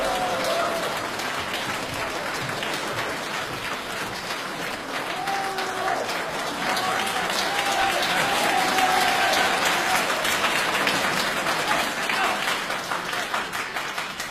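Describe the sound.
An audience gives sustained, enthusiastic applause to welcome two crosstalk (xiangsheng) comedians onto the stage at a Beijing comedy show, the many-handed clapping swelling in the middle and holding strong for well over ten seconds.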